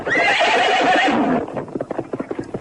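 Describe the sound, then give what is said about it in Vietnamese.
A horse lets out a long, loud, wavering whinny, then many quick hoofbeats follow in a rapid galloping rhythm. “Con ngựa hí một tiếng dài, phi như bay.”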